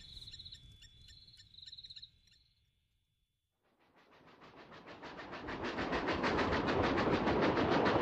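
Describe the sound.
A train pulls away from a station: steady cricket chirps fade into a brief near-silence, then a broad rumbling roar builds and grows louder until it stays loud and dense.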